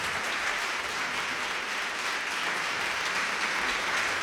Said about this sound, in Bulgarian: Вашите аплодисменти са за тях.